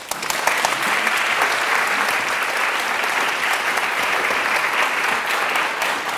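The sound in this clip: Audience applause welcoming a speaker to the stage at a talk: dense, steady clapping from many hands, loud and sustained at an even level for about six seconds.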